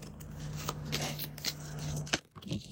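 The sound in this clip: Tarot cards being shuffled during a reading make a soft, continuous papery riffle, with a few sharper snaps and flicks. It stays quiet throughout over a low, steady hum.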